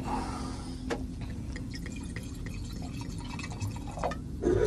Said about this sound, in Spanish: Me encanta que se escuche el sonido sí. de la copa.